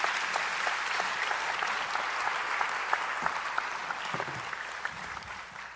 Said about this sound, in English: Give Chuck a hand. Thanks, Chuck.